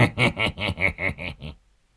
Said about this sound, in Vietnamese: ê, con lợn này trông béo tốt, lại cũng sạch sẽ, đem nướng cả con thì ngon phải biết